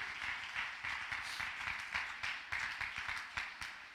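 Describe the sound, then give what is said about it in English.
A church audience claps its hands during a fiery sermon. Brisk, evenly spaced claps come in a steady rhythm, fairly soft throughout, with no voices standing out. “When the fire falls, jump to your feet and clap your hands as I close.”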